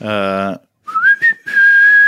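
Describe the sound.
A person whistles a short song melody after a brief vocal sound: a few quick, clear pitched notes run into a long, steady held tone, bright and fairly loud.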